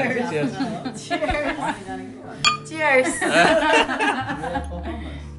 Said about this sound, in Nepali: सबैजना ग्लास ठोक अनि गएर चियर्स